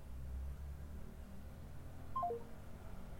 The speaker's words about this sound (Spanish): Se cortó la llamada, no sabemos.